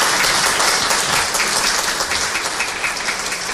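Audience applause at a public presentation event, steady dense clapping filling the whole clip at an even, loud level without a break.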